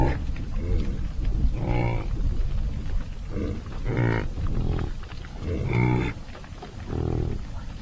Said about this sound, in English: the entire herd runs towards it. It's a scary sight for the uninitiated as the huge shouldered animals hurtle across the prairie. They circle round, then slow, and stop to graze.